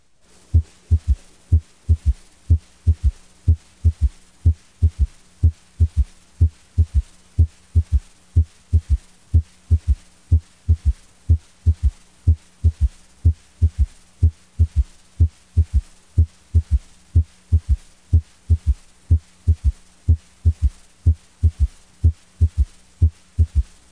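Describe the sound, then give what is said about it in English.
Heartbeat heard through a stethoscope bell over the mitral area, with first and second heart sounds and a third sound during expiration: many steady, regular low thumps over a faint continuous hum. “S3 is heard best during expiration when blood flow into the left ventricle is increased. Listen to sounds S1, S2, and S3.”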